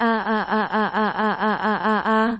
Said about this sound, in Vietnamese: Nào đó cao không rớt vật phát ra liên tiếp tiếng kêu thảm thiết.